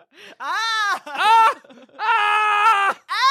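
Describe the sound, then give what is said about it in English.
A person imitates a screaming ape with several loud, drawn-out wailing howls, each voiced cry rising and holding before breaking off, separated by short pauses. “My ape I just ended up screaming like”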